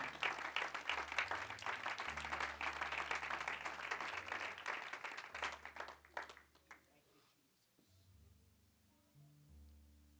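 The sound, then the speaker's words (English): Congregation clapping hands in a church service, a dense sustained patter of applause for several seconds that thins and fades out, then gives way to quiet low tones. “Would you clap your hands one more time unto Jesus?”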